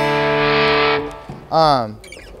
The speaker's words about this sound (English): And a fun thing I used to do with the Brothers, I don't do it anymore because I just use this amp for distortion.